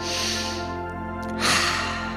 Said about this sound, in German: Nimm dir noch einen tiefen Atemzug.